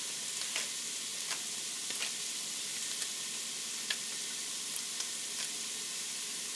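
Onions sizzle in a pan on a stove set around medium-high, a steady, soft frying hiss broken by occasional sharp little pops and crackles.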